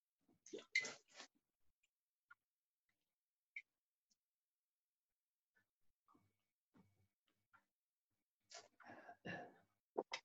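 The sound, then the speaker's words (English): Sips of water taken to soothe the throat: a short slurping burst near the start and another cluster at the end, with a few faint small clicks in the quiet between. “Just going to have a sip of the water here. The throat needs nourishment as much as anything else in there.”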